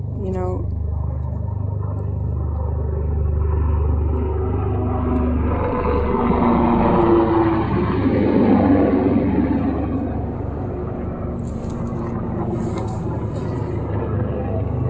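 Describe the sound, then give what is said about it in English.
Deep, steady rotor rumble from a big helicopter flying very low overhead, a heavy droning roar that swells slightly midway while people talk over it. “Big helicopter. Oh my God. They're flying really super low.”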